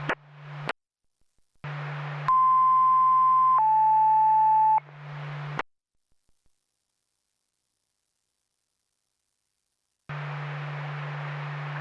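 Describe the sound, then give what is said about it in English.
Alarm tones ring over a fire dispatch radio channel for Newberry Springs: a low buzzing hum, then a loud steady tone that steps down to a slightly lower pitch, with bursts of hiss and brief clicks between silent gaps. “Ring alarm.”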